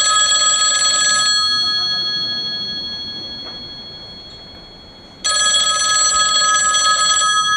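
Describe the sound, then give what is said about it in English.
An old-fashioned telephone bell rings twice, each a bright, loud metallic trill lasting about two seconds, with a fading pause of several seconds between the rings. “I played that sound for a reason. And I know when I grew up, that was the sound that a phone made.”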